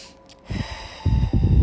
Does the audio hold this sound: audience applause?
no